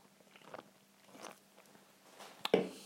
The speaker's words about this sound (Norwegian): Sikkert veldig plagsomt at jeg sitter og spiser her